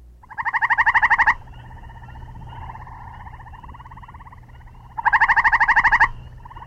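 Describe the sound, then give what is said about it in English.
Northern gray tree frog calling: two loud, musical pulsed trills, each about a second long and a few seconds apart, with a fainter steady trilling in the background between them. “Northern gray tree frog.”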